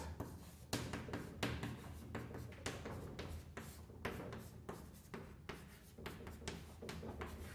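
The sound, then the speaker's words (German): Writing strokes as an equation is written out during a physics lecture: many short, scratchy bursts in an uneven rhythm, moderately loud, with no talking. “schreiben wir es einfach hin”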